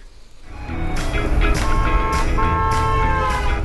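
Road noise of the Wienermobile driving through city streets in Madison: a steady low rumble that swells in after a quieter start and holds, loud and even, to the end.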